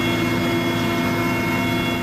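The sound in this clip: Aircraft engine drone from a firefighting plane flying over a wildfire in windy, steep terrain. A loud, steady roar holds without a break from start to end, with no voices.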